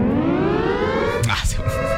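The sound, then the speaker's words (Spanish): An ambulance siren wails as one steady tone that slowly rises in pitch, with a short burst of noise near the middle. “hay una ambulancia atrás”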